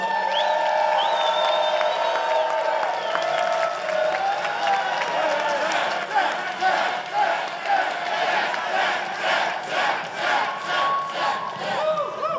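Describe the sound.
An audience claps and cheers as a guest is introduced on stage. Loud crowd whoops and cheers come first, then dense, rhythmic applause builds and carries through to the end.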